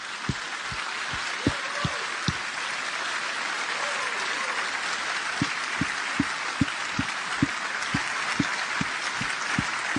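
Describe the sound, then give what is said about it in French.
A church audience gives an ovation to Jesus with dense, steady applause. A regular beat of low thumps runs through much of it, and a faint voice rises briefly in the middle. “Est-ce qu'on pourrait rendre gloire à Jésus, simplement en lui faisant une ovation ?”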